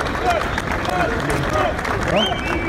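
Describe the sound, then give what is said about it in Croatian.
More than a thousand residents holding Albanian flags applaud and cheer Albania's president on a town square in Bujanovac. Continuous clapping blends with a busy murmur of crowd voices at a steady level. “Nišanija je na trgu ispred zgrade opštine u centru Bujanovca dočekalo više od 1000 meštana sa albanskim zastavicama u rukama, kao i bilbordi sa njegovom slikom i natpisom "Dobrodošli predsjedniče". Čekanje ovacijama i aplauzom.”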